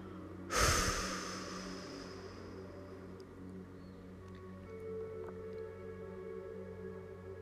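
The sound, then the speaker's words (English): A single breath out during a guided relaxation exercise: a soft rushing burst that starts abruptly and fades over about a second, leaving a faint steady hum. “Hold. And exhale anything that is not serving you.”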